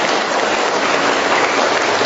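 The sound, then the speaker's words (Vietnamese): An audience gives another round of applause at a gathering, a loud, dense, unbroken wash of clapping that stays even from start to finish. “Wow, cho một tràng pháo tay nữa thưa anh chị em.”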